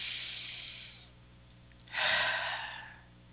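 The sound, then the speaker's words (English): A single deep breath drawn in during a guided spiritual meditation, a soft airy inhale that swells and then fades, with no talk around it. “Archangel Michael, take that deep breath,”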